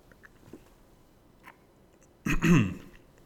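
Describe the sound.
A single throat clear from a man with a frog in his throat: a short, rough, loud burst that stands out after a few faint small sounds.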